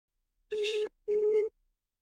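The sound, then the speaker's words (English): Telephone tones sound as a call is being placed: two short, steady electronic beeps of the same mid pitch, separated by a brief gap, then silence. “But I'm going to dial now and we're going to see what happens.”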